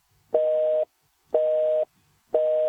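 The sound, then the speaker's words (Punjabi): Telephone busy tone after a call disconnected: three short, identical beeps at one steady pitch, evenly spaced about a second apart, each lasting half a second with clean silence in between. “Disconnect ਹੋ ਗਿਆ ਜੀ।”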